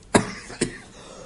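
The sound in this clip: Two short, sharp coughs from someone with something caught in the throat, the first louder than the second, separated by a brief pause with no talk.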